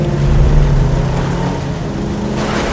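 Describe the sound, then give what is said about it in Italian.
Engine of a Brough Superior motorcycle accelerating along a small country road, a loud, continuous roar with steady humming tones, heard alone without voices. “A velocità sempre crescente, percorre a bordo della sua Brough Superior una piccola strada di campagna”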